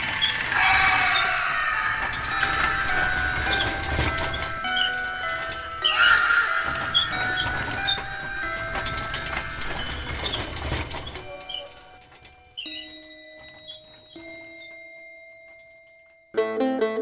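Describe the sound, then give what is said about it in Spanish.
A horse-drawn death cart passing: a loud, dense clatter of hooves and rolling noise with ringing tones running through it, which thins into sparse ringing and ends with a brief sharp burst. “por las noches, y si pones mucha atención, todavía puedes escuchar a la carreta de la muerte.”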